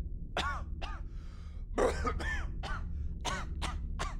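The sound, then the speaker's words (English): Coughing and hacking from people choking on poison gas: a run of many sharp coughs and throat-clearing bursts at an uneven pace, some harsh and rasping, over a low steady background hum. “you just hear coughing, wheezing, which turns into sputtering, wheezing hack.”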